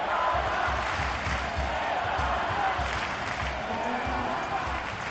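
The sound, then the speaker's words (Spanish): A tennis crowd cheers and applauds to encourage the Asturian player Carreño, a steady, dense roar of clapping and shouts under commentators' voices. “Y mira, Oliva, escucha al público, sí, porque ahora sabe que le necesita a Carreño y anima al asturiano.”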